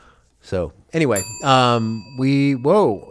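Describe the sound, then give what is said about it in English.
An email notification bell rings once in a studio, its bright, sustained metallic tone lingering under ongoing talk. “do I hear the email bell”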